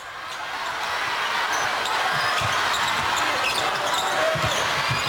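Basketball dribbled during a China team game, a few low, dull bounces against a steady, loud roar of crowd noise.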